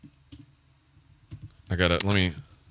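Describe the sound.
Typing on a computer keyboard: a few sparse, sharp key clicks, then a voice briefly speaking over them.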